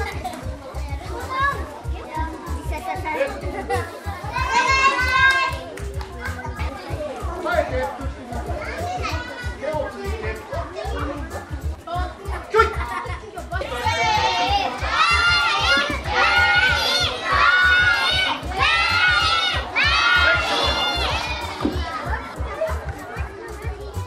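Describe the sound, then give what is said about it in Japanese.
Children shout and cheer encouragement to teammates around a sumo ring at a children's sumo tournament, a dense, loud and continuous clamour of young voices that swells louder in the second half. “土俵の周りでは戦う仲間を元気な声で後押し。”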